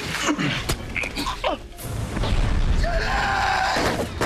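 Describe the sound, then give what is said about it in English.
A gunshot rings out in a tense TV thriller scene, with a few sharp bangs and impacts scattered through a dense, busy mix of dramatic sound. “Nick, who has stabbed Kevin, is now shot by Ortiz.”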